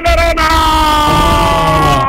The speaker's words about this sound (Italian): Almeno un ultimo grido quasi di battaglia stagionale, grazie al nostro amico.